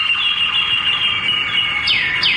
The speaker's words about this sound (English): Some of these birds, it's just like they create the song, but it's never the same. And they'll go slower and faster.